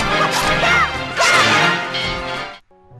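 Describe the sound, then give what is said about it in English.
Sword combo hits in the Wind Waker video game. Rapid, loud slashing strikes and whooshing swipes are layered with musical stings, and a brief tonal note ends the sequence. “When you would get into a sword combo against something, it would sound like this.”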